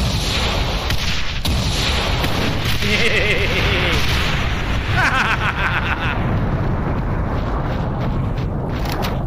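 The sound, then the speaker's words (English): Video-game explosions erupt as a thick, continuous roar of booming blasts and rumble, staying loud across the whole stretch with some brief tonal whines mixed in. “Right, so we know these things fucking explode.”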